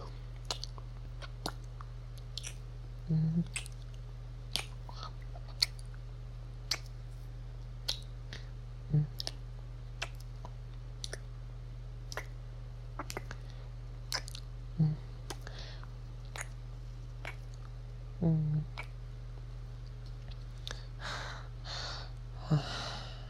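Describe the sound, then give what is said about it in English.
Kissing sounds: many faint, short, wet smacks and clicks, spaced irregularly over a steady low hum. “I suppose we can call that little kiss war a draw, huh?”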